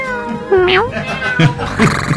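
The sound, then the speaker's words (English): Black and white cats meow, giving a few short, loud meows, one of them drawn out with a rising and falling pitch, over a continuous tonal background. “a talented trio of black and white cats performing a dance involving top hats”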